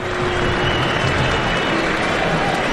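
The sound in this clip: Football stadium crowd at half-time after a goalless first half, a loud, steady wash of murmuring and scattered clapping with no surge of cheering, flat and unexcited throughout.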